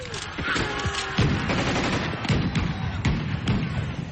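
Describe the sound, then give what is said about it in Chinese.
Gunfire as guerrillas storm a village and shoot at enemy soldiers: many sharp, irregular shots and ragged bursts crack over a dense, continuous din of battle noise. “游击队员们冲进了村子，向鬼子们射击。”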